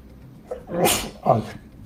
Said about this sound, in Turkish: kusura bakmayın hapşırdım